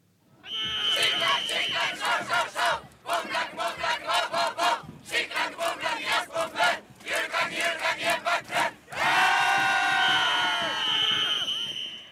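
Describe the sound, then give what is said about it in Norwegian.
Norwegian russ graduates shout and cheer in spring. The crowd yells in loud rhythmic bursts, then breaks into a sustained roar of screaming. “Det er et vårtegn. Russelyden. Det er snart vår og russetid”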